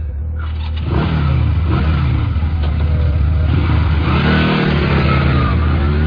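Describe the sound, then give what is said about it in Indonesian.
A motorbike accelerating at high speed: a quieter first second, then a loud, sustained engine roar that holds strong to the end. “Aku mulai melajukan motorku dengan kecepatan tinggi agar aku cepat sampai menuju rumahku.”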